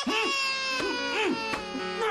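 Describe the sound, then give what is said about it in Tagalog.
An infant cries hard, wailing over and over while being scolded at home. Loud, continuous sobbing runs through several rising and falling wails with bright, strained harmonics. “Ba't iyak ka ba ng iyak?”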